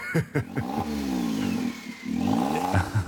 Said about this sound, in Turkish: Sesi inanılmaz güzel. Evet. Sanki Subaru sesine benziyor. Aa, evet. Üç silindirli motordan bu sesi kim beklerdi ama ki?